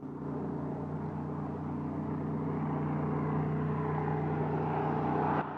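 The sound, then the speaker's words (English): A small aircraft flies across a clear sky, its engine a steady, fairly faint low drone with a constant humming tone that stays level throughout, then cuts off with a brief click at the very end. “A small aircraft progresses across a clear blue sky.”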